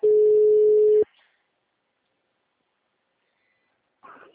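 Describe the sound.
A steady, single-pitched telephone tone is heard as a phone call is placed again. It sounds loud and unbroken for about one second, then cuts off abruptly into silence, and a short faint sound follows near the end.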